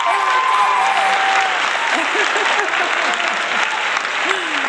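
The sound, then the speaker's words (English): Audience applause welcoming an author on stage, with dense, steady clapping from a crowd that stays loud throughout. “ladies and gentlemen, please put your hands together and help me welcome the author of The Bad One”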